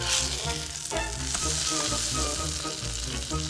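An omelette made with a generous pour of milk fries in a pan, giving a loud, steady sizzle that crackles without a break from start to finish.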